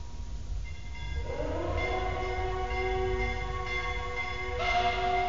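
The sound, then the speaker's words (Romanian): A mournful siren-like horn sounds through fog, a long steady tone swelling in after about a second and holding over a low rumble, with a higher tone joining near the end. “Sirena asta înspăimântătoare și clopotele. De ce oare ceața face să ți se pară totul trist?”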